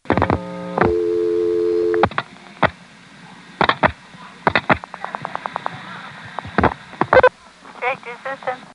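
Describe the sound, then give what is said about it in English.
A 1973 telephone call to 411 routed through the 9-1 selector, heard as a steady buzzing tone followed by scattered clicks and short pulses of switching, then a quick run of rapid ticks. “Here's dialing 411 in 1973, and you'll see it's dialing 9-1.”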